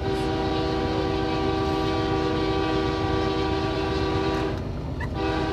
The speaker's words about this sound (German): Ich liebe den Klang des Zuges.